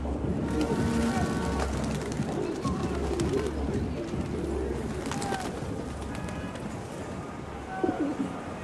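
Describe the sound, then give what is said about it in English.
Pigeons coo in low, throaty, repeated notes over a constant rumbling background hum, among flocks feeding around the clock under never-ending lights. “The pigeon gang here has completely embraced this never-ending show of sound and light.”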